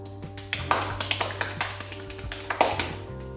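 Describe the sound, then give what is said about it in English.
Rapid hand clapping demonstrated by a speaker, many quick sharp claps in a fast, slightly uneven rhythm at a moderate level. “And he just did it so fast, he's like just clapping hella fast. Like even that.”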